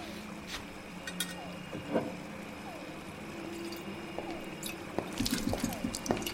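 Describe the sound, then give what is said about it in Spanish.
Drops of liquid fall onto a daguerreotype plate in a laboratory: a few soft, faint plinks spaced well apart, each with a quick falling pitch, over a quiet hiss, with small wet clicks clustering near the end. “José Arcadio, en el laboratorio, agrega un líquido a una placa y la mira atentamente.”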